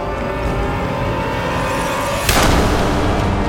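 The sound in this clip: A sudden burst of gunfire, a volley from a group of men opening fire on a camp, breaks through a steady rumbling background, and the noise stays heavier afterward.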